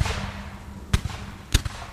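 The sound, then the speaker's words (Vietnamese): Gunshots fired at a man in the rain after a water plant explosion: two sharp, loud bangs with a heavy low thump, each followed by a smaller knock, over a steady hissing background. “Ông Hiếu khuôn mặt như điên lên, quay lại Xí mà nổ liền mấy phát súng.”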